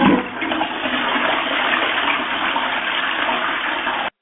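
A toilet flushes in one long, loud, steady rush of water that starts with a brief surge and then cuts off abruptly, with no talking.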